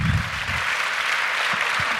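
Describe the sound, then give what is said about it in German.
Applause for prize winners at a startup founders' award ceremony: dense, steady clapping from an audience that holds an even level for about two seconds. “Go Esteem und einen großen Applaus natürlich”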